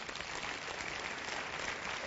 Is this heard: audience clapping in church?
yes